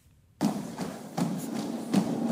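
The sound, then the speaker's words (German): Heavy rhythmic stamping from the female carnival dance guard of Düsseldorf marching in military lockstep, three strong thuds at an even, measured pace over a dense background rumble. “Da stampft sie herein, die perfekt normierte Weiblichkeit im militärischen Gleichschritt.”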